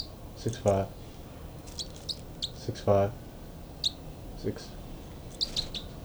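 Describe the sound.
Two birds sing in scattered short chirps and tweets, some high and thin, others lower and fuller, spread unevenly across a quiet, faint background.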